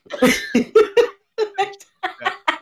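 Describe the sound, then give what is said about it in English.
Hearty laughter broken by coughing: many short, breathy voiced bursts in an uneven rhythm, loud and without words. “I'm laughing so hard. I keep coughing.”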